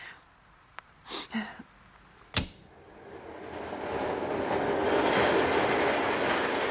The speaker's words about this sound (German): Der Zug. Mein Gott, das ist ja nicht zum Aushalten. Aufhören!